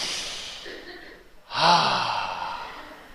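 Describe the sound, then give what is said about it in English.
A standing audience takes a deep breath together: after a quiet lull, a broad breathy swell of many people exhaling rises suddenly, then slowly fades. “Now once everybody is standing, everybody just take a deep breath with me.”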